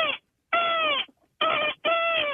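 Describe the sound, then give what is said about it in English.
A person imitates a seagull screech, giving it a deeper, bassy tone. There are four loud, harmonic, nasal squawks with short gaps between them, and the first is cut off at the start. “give us a little bit of your seagull screech, please.”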